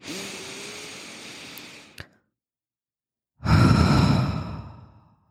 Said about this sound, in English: can we just all take a breath and enter back into our bodies